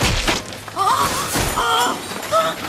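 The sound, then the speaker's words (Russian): A crash with breaking glass as a laboratory door is torn off its hinges: heavy thuds and shattering glass, with brief ringing tones rising over loud, rough noise. “И тут раздался грохот. Зазвенели разбитые стекла, дверь лаборатории крякнула и сорвалась с петли.”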